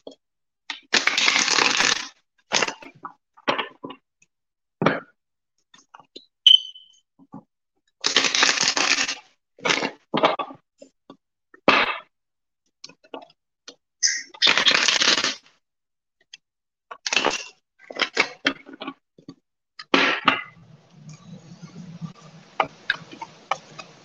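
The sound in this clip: A deck of tarot cards is shuffled in repeated short bursts of crisp riffling and rustling. The bursts are separated by quiet gaps and stay fairly soft throughout.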